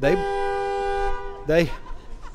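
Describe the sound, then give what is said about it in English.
A car horn sounds on a brand new car in one steady, loud blast lasting a little over a second, followed by a short burst of voices. “honking a horn”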